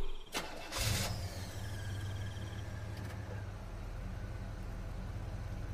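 A car driven on a night highway: a short burst of engine noise near the start settles into a faint, steady low hum with a droning tone that holds evenly to the end.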